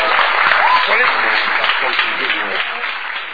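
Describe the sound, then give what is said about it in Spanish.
Audience applause at a motivational talk, a steady dense wash of clapping that stays loud throughout and fades slightly toward the end, with no voice over it. “Un aplauso fuerte para Matías Orieta.”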